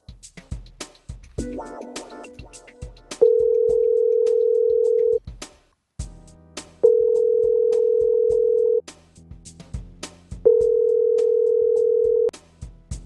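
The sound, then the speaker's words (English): Telephone ringback tone on an outgoing call: three long, steady, mid-pitched tones of about two seconds each, separated by pauses, with scattered clicks and faint noise at the start. “Let's see if I can get the phone ringing right.”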